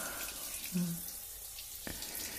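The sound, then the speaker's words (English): Water pours steadily in a shower, a faint, continuous hissing rush with no break. “The water pouring down your body.”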